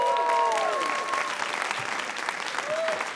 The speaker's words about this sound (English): please put your hands together and welcome the brilliant John Tothill!